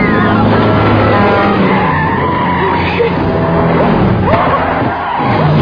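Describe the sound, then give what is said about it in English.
A car skids with loud, continuous tire squeal as it is driven recklessly, the engine's roar running steadily underneath throughout. “Stop what you're doing and stop this fucking car!”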